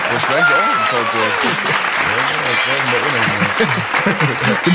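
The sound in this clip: Applause rattles steadily through the whole clip, a dense even patter of clapping, while several people talk and laugh over it.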